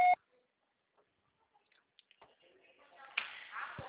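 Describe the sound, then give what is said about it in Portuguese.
A short, loud electronic voicemail beep signals the start of a message, followed by near silence and then a person beginning to speak. “estará sujeita à cobrança após o sinal. Deixe seu recado. Deixe seu recado.”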